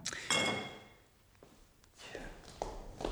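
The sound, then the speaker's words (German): A glass bottle of vodka is set down, giving a few light clinks and knocks spaced apart, fairly faint. “Eine Flasche Wodka. Warum denn bloß eine?”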